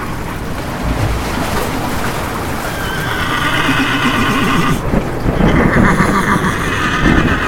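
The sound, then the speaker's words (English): Chincoteague ponies whinny again and again, their high quavering neighs layered over a steady rushing wash of noise that sounds like surf and water. “And who doesn't love these ponies? This specific kind is called the Chincoteague pony.”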